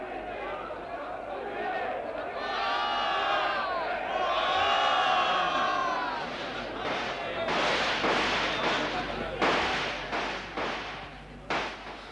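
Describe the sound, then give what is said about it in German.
Gunshots ring out in a 1952 German radio drama of Hauptmann's Die Weber. Agitated crowd voices and shouting build first, then several sharp, loud bangs burst in among the voices. “Was? Die schießen wieder.”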